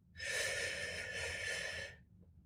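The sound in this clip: A single long breath during a guided, counted breathing exercise: a steady, airy rush that runs for about two seconds, then stops.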